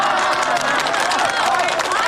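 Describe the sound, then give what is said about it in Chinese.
Villagers applaud warmly to welcome visiting guests before a rural stage performance: dense, steady clapping and crowd noise that holds at an even, loud level for the whole clip. “乡亲们，咱们用最热烈的掌声，让远道而来的客人感受一下我们的热情，”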